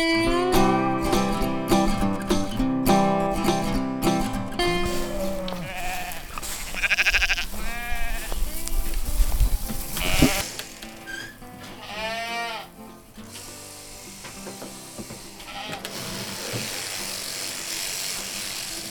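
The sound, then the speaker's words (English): Sheep bleat during shearing on a Manitoba farm, with loud, wavering bleats rising several times over the continuous buzz of electric shears. “Today we're in Cartwright, Manitoba, and today we are shearing sheep.”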